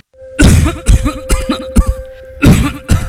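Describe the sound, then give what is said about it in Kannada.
A man coughs deeply and persistently in a loud, harsh series of bursts that come in quick succession with short gaps between them. The hacking goes on through the whole stretch with no speech. “ಏನೇ ಆಳದ ಕೆಮ್ಮು ನಿಲ್ತಾನೆ ಇಲ್ವಲ್ಲಪ್ಪ?”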